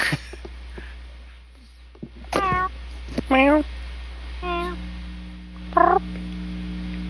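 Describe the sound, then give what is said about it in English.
Cat meowing a few times, each call a short, clear, mid-pitched tone, with quiet gaps and low background noise between calls. “Hello, cat.”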